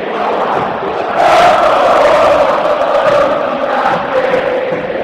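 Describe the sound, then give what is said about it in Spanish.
Football crowd roaring at River Plate's Monumental stadium: a loud, dense, continuous mass of voices that swells after the first second and then holds steady throughout. “Escucha. Escucha el Monumental. Sentite en la cancha de River.”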